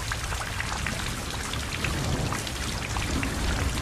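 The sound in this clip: Steady rain pours down in a dense, continuous hiss of drops with no pauses and no voices.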